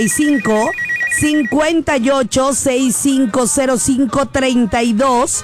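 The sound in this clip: A telephone rings on a radio call-in line, heard as a quick warbling trill in the first second and a half beneath continuous talk that fills the whole clip.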